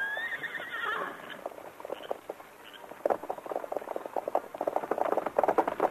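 Whinny of Silver, the Lone Ranger's horse: a high neigh that falls in pitch, followed by many quick hoofbeats clip-clopping in an uneven rhythm. No one speaks.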